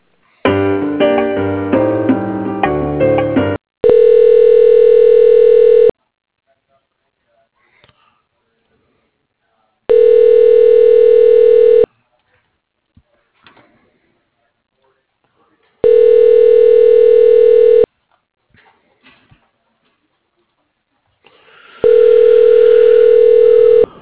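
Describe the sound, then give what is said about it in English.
A telephone line tone plays while a call is transferred to voicemail. It gives four steady, evenly spaced beeps of about two seconds each, with near-silence between them. A short burst of other sound comes before the beeps. “I can put you through to her voicemail.”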